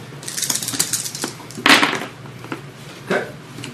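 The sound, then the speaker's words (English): Three dice rolled during a tabletop role-playing game: a run of quick, light clicks followed by a few sharper, louder clatters as the dice land and settle. “So roll three dice. Three dice, take the top two.”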